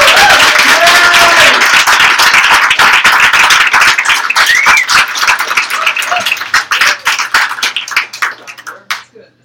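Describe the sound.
Audience applause greets a poet introduced at a poetry reading: many hands clap in a dense, loud burst with a few cheers, holding steady and then thinning into scattered claps that fade out.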